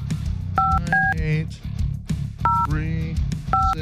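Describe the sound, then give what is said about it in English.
Touch-tone dialing beeps from a desk phone while dialing out, four short two-tone beeps in two pairs with a pause between, as someone talks around them. “Just have to dial one. Hold on. I got to make a call.”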